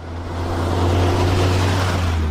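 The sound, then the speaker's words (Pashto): A four-wheel-drive vehicle travels a rough, bumpy dirt road to Baghran district, producing a steady, loud low engine drone with continuous rattling road noise throughout and no voices. “د باغران ولسوالۍ ته پر غزیدلی کند او کفر سړک د روان هغه کومک لرونکو بایپور موټر ژغ دی چې اوس مهال مرکز لشکرګاه شار ته د باغران ولسوالۍ څخه راورسېدلی.”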